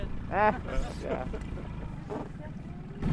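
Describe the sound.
A running engine gives a steady low drone throughout, with a few brief voices speaking over it.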